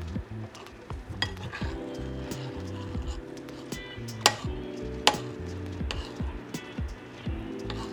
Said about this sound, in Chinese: 就是边把水倒进去，然后边搅拌面糊。